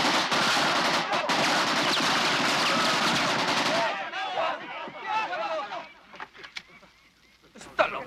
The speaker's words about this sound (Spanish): Este es el rifle de asalto AK-47, el arma preferida de vuestro enemigo. Hace un ruido característico cuando lo disparan, así que recordadlo.